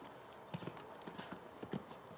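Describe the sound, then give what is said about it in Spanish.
Hooves of a horse on a show jumping course clip-clop in an irregular run of soft, muffled thuds, faint and steady throughout. “Ya ven que es un caballo que se va muy arriba en los altos.”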